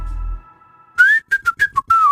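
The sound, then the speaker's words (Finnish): A person whistles into a microphone: a faint steady tone holds at first, then a quick run of about six bright, loud whistled notes, the first one long and rising, with the rest short and varied in pitch. “Piti nyt oikein kokeilla, ei uskottanut vielä niin kova tuohon mikkiin, että se alas särkemään, mutta kyllähän se sieltä tulee vihellystarpeen vaatiessa.”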